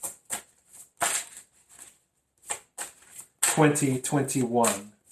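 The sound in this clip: Tarot cards are shuffled and drawn for a reading, giving several sharp, dry snapping and slapping sounds at irregular intervals. A voice then begins speaking.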